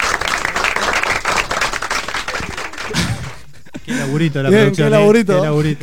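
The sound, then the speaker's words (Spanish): An audience applauds to welcome a guest on a talk show, with brisk, dense clapping for about three seconds that then stops, followed by a voice speaking. “Y acá tenemos a nuestro invitado del día, Nico también. Fuerte el aplauso. Bienvenido.”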